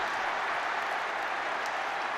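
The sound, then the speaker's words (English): A football crowd cheers after a Newcastle goal at their home ground, a dense, steady wash of noise that holds loud and unbroken throughout. “Barnes takes his time and rifles it home. Cheers of jubilation and some relief”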